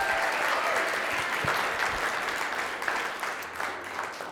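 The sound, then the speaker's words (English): Audience applause at a church gathering welcoming a speaker: dense, steady clapping from many hands, loud at first and thinning slightly toward the end, with no voices standing out. “Give her a hand, you guys.”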